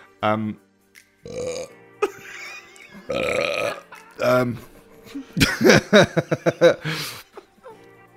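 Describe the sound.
A man's burps edited together into a rapid string, many croaking belches of varying pitch and length following one another, with chuckling and laughter mixed in.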